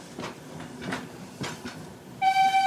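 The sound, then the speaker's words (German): A 140-tonne coal-fired steam locomotive runs, giving a few spaced, breathy exhaust chuffs. A loud, steady, high whistle tone follows and lasts until the end. “Die Lok selbst wiegt 140 Tonnen. Für einen Tageseinsatz, der bis zu 16 Stunden dauern kann, braucht sie 3 Tonnen Kohle aus eigenem Abbau.”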